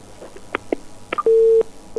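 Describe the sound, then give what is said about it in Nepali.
A telephone tone after a caller hangs up, a steady low beep held for about a third of a second, preceded by a few short faint blips, with another beep starting at the very end. “तर पनि साथीहरूले phone काट्नुहुन्छ ठिकै छ no problem फेरि try गर्न”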